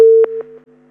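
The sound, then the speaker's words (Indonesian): Telephone busy tone as a call line disconnects: a steady single-pitch tone that steps down in loudness, broken by a few soft clicks. “Sepertinya terputus ya.”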